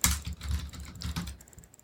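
Computer keys click in a quick, uneven run during an instant domain search, with several bursts close together that ease off toward the end, and no voices.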